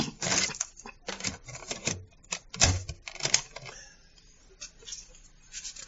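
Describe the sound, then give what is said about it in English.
A cassette tape being handled and turned over makes a quiet, irregular series of sharp plastic clicks and clattering knocks, heard alone. “Let me just turn over this tape.”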